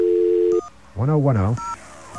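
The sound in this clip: Touch-tone telephone dialing of a long-distance carrier access number: a steady low line tone, then two short dual-tone beeps with a voice sounding briefly between them.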